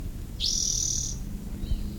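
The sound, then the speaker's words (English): A bird sings one drawn-out, high, thin whistled note, quiet and clear above a soft low rumble. It is part of a group of several active birds. “What was bird number two, I think, is still singing.”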